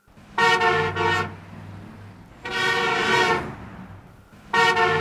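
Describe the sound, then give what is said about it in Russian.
Car horns honk impatiently in stalled traffic, with three long, loud, blaring blasts separated by brief pauses under a steady low engine rumble. “Сзади нетерпеливо загудели клаксоны.”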